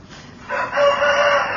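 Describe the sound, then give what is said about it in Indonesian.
A rooster crows loudly in one sustained, slightly wavering call that begins after a short quiet lead-in and carries on to the end. “Dekat banget ayamnya enggak?”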